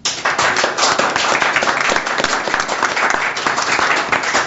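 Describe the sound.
Loud, dense applause from a quiz audience thanking the players, with continuous clapping that stays even from start to finish.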